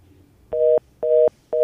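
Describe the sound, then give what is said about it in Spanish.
A telephone line tone sounds after a dropped call on a call-in line: three loud, evenly spaced beeps, each a steady tone of about a quarter second with equal gaps between. “Ahí se nos cayó esa llamada.”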